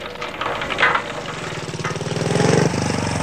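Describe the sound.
Motorcycle engine passing along a dark street at night, a loud, steady buzzing drone that builds in strength toward the end, then shifts abruptly near the close.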